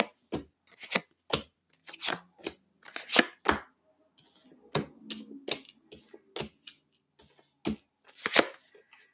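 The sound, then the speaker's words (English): Cards pulled from a deck make many sharp papery snaps and flicks in quick, irregular bursts, loud against near silence, with a short soft rustle partway through. “I know it sounded like I pulled like 50 cards. I pulled 5.”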